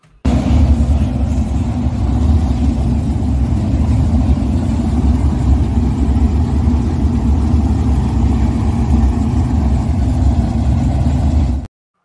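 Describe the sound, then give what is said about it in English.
Race car engines roar at a local dirt racetrack, a loud, steady, low-pitched drone that holds evenly for about twelve seconds with no distinct passes or breaks. “going to a racetrack last night, and I figured I would bring back some videos and tell you I approve this message. Support your local dirt track, all right?”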